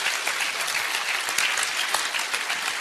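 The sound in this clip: An audience applauds to thank the panelists at the close of a conference session: dense, steady clapping from a full room, even in loudness throughout the short stretch, with no voices over it.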